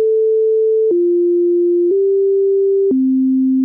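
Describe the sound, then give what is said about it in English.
Tsunami siren test tones play as a sequence of four loud, steady pure tones, each about a second long, with the pitch stepping down, up slightly, then down to the lowest tone at the end. “Tsunami sirens are tested every other month on the first Monday of the month at 12 o'clock noon. Test tones sound like this.”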